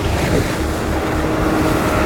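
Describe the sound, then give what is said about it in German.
A boat races in a tight curve over waves, a loud, steady rushing roar of water and wind with no clear breaks and no talking. “Ich jagte unser Boot gerade in einem engen Bogen über die Wellen.”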